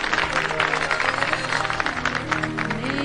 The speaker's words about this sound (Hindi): आप सबकी पुरजोर फरमाइश पे ये गाना सुना रही है तो तालियां भी होनी चाहिए।